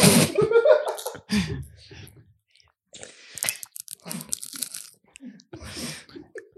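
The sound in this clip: Crunching and chewing of salty popcorn in irregular bursts, mixed with vocal sounds and short pauses between bites.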